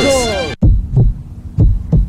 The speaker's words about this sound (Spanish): Si sientes mareos o palpitaciones, no lo dejes pasar. Cada latido cuenta